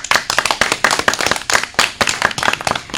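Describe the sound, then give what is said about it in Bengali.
Loud clapping from a group cheering a children's singing competition, many sharp, overlapping hand claps in a brisk, uneven run with no voices. “তাই জোরে হাততালি।”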